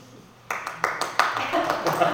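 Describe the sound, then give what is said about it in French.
Standing ovation at a city council meeting: after a brief quiet stretch, applause breaks out abruptly, with scattered sharp claps building into a continuous patter and voices mixed in. “A standing ovation.”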